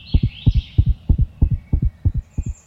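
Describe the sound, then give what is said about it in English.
A chipmunk's normal heartbeat: many rapid, low, muffled thumps in quick pairs, pulsing steadily and fairly loud. A faint thin high whistle sits above the beats near the start. “For example, chipmunks have a normal heartbeat of 350 beats per minute,”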